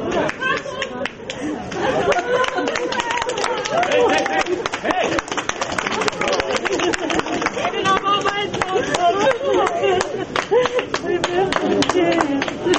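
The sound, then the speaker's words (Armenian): Relatives clap steadily to greet a 23-year-old soldier returning from captivity at Zvartnots airport. The dense, continuous applause runs throughout, mixed with lively crowd chatter and voices. “Զվարթնոց օդանավակայանում հավաքված Հակոբի հարազատները ծափահարություններով դիմավորեցին նրան, մեջքին պարզելով Հայաստանի եռագույն դրոշը։”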